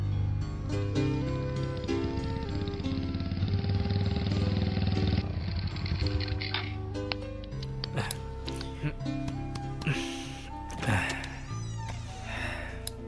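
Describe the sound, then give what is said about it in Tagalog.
A motorcycle arriving, its engine droning loudly and steadily for about five seconds before other busy sounds take over. “sabi na nga ba, motor mo yung narinig kong dumating eh”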